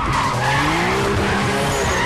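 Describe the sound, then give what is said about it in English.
Tires squeal in a loud, continuous skid as a Toyota race car spins wide through the last turn of a race, with wavering pitched tones sustained throughout. “Too wide. The Toyota spins wide and Brian gains enough tarmac to drive up next to it.”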